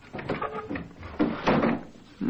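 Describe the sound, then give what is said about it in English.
A window, kept locked with a nail, being opened once the nail is pulled out: a few faint scraping and creaking bumps of wood sliding, uneven in rhythm and fairly quiet. “And let's see. I pull the nail out of this one and open the window.”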